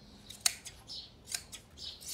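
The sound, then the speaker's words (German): Scissors clip a horse's fur in a few quick, sharp snips, one noticeably louder than the rest, separated by brief quiet gaps with no voices. “Aber ich bin überrascht, wie gut das geht, hätte ich nicht gedacht, mit so einer Schere.”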